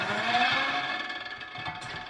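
A 50-ton flywheel-driven machine runs with a steady droning whir and low rumble, plus faint mechanical clatter, holding a fairly even level throughout.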